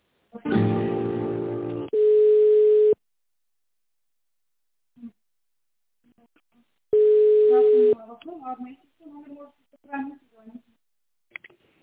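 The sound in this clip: Telephone line tones while a call is transferred: a short buzzy burst, then two steady, mid-pitched tones that each last about a second, with silence between them. Brief talk follows the second tone.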